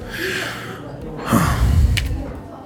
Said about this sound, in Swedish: Tar några tunga andetag.